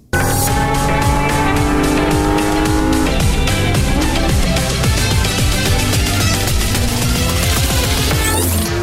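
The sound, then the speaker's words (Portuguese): A Porsche 718 Cayman GT4 RS accelerates hard on a race track, its engine loud and high-revving throughout. The pitch climbs repeatedly as it pulls through several gear changes. “Da garagem exclusiva da marca alemã Volkswagen, a gente vai acelerar agora uma outra máquina do grupo em pista de corrida, o Porsche 718 Cayman GT4 RS.”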